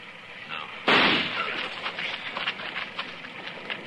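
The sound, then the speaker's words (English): A single gunshot fired at a tree, a sudden loud crack followed by a scattered, crackling patter that lingers and slowly fades. “I'm going to flip a shot at the tree”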